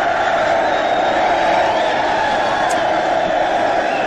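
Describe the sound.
Studio audience cheering sound effect: a dense, continuous crowd roar with shouts and whoops that holds at a steady, loud level throughout, with no single voice standing out.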